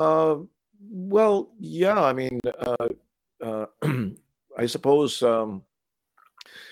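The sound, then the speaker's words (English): Someone clears their throat repeatedly, a series of short voiced, rasping bursts separated by brief pauses, moderately loud, with one rougher, noisier burst near the end. “Sorry, I got something in my throat here.”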